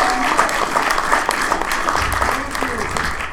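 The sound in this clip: Audience applause at the Tempe Center for the Arts as the show host is introduced. Steady, dense clapping fills the whole stretch, with some talk over it.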